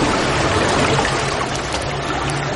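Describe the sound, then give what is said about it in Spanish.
Water gushes from a pipe in the wall of a narrow underground passageway, making a loud, steady, unbroken rushing and splashing that fills the whole stretch without pauses or voices. “Al llegar a un cruce de pasillos, descubren un caño de agua que sale de la pared.”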